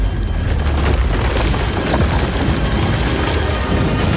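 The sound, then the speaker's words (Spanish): A fiery explosion destroys a wall in a fantasy film scene: a loud, dense roaring rumble that holds steady through the whole clip without a break. “La masa de fuego y humo tira a Gandalf contra el suelo. Lo eleva y lo deja pegado contra un muro que se destruye alrededor del mago.”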